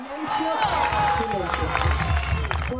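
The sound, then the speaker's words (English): Relatives cheer and clap in a packed courtroom as the verdict is read against former Argentine junta leaders for stealing babies. Excited voices blend with the applause in a continuous, crowded burst. “Relatives of the stolen children cheered in the packed courtroom as the verdict was read.”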